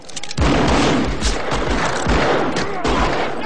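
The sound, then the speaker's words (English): Gunfire from the gunfight scene of the 1994 film Wyatt Earp, with Kevin Costner: many loud, overlapping shots and booms in a rapid, continuous barrage. “What you're hearing now is the gunfight scene in the 94 movie Wyatt Earp with Kevin Costner.”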